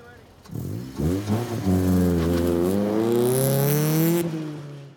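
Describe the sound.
An autocross race car engine revs hard on a paved lot course marked with traffic cones, its loud buzzing note climbing steadily in pitch for several seconds before cutting off.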